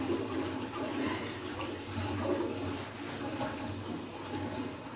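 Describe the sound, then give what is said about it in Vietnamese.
Water runs steadily as fingers are washed during ablution before prayer, a continuous, broad splashing rush that stays at an even level from start to finish. “Rửa ngón tay 3 lần. Rửa hết ngón tay luôn. Đấy, rửa.”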